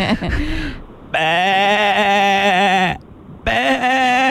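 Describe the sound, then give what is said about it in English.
Sheep bleating in two long, nasal, wavering cries with a shaky tremble, strained and slightly pained, separated by a short pause; the second cry is cut off at the end. “It is a slightly unhinged sheep.”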